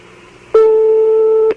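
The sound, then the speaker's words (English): A telephone ring tone sounds on a phone line in Tehran, Iran: one steady electronic beep about a second long, even and mid-pitched, starting and stopping abruptly over a faint background hiss. “That's a phone ring in Iran, isn't it? Yep, it is. The phone is ringing in Tehran right now.”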